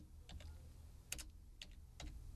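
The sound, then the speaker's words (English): Faint, sparse clicks of keys on a computer keyboard as a password is typed to sign back into an online account, in a few short irregular bursts over low background hiss. “Oh, it's not working. I typed in the wrong password.”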